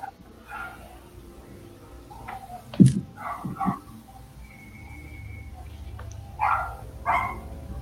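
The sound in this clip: A small dog barks a few times in sharp yips, scattered unevenly and fairly faint against a steady low background rumble.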